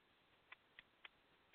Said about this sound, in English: I assured him everything was going to be all right, and he didn't need to scream, but I'm sure he's going to do it again because that's what birds do. Right, Bird?